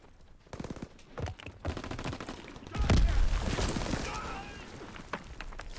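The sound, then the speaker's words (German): A submachine gun fires in a video game, letting off rapid spray bursts of crackling shots, followed by a louder, heavier stretch of gunfire near the middle. “Irgendwie macht das Ding zu wenig Schaden. Ah, wieder mal eine Spray and Pray SMG. Beste Waffe.”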